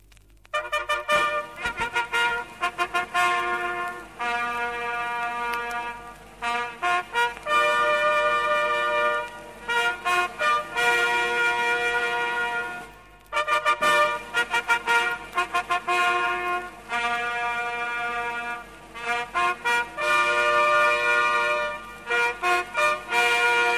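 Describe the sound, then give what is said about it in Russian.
Bugle playing the ceremonial greeting signal, in a piece dedicated to the memory of heroes: bright, brassy held notes sound alone and loud, grouped into several phrases separated by short pauses. “Памяти героев посвящается. Сигнал «Торжественное приветствие».”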